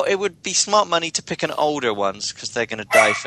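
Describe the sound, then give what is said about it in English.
A dog lying under a desk barks in short, loud yelps that break in over steady talking by a man. “Hey, no, we got the dog bark.”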